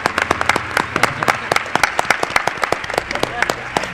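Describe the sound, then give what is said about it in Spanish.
Audience applause at a live talk show, a steady run of sharp, quick hand claps that stays fairly even in loudness for the whole four seconds. “Un aplauso para una de las almas de Milenio 3.”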